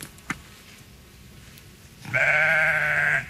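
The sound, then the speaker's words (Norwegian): A single long, loud sheep bleat, from sheep being let out to pasture, wavers steadily after a stretch of near silence with one faint click. “Ja, hør på det. Sauene skal ut på beite”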